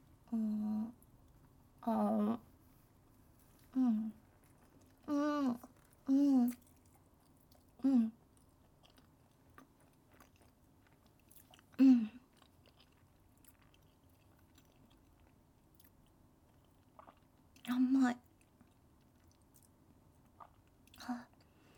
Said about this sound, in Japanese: 焼き芋早速いただきます。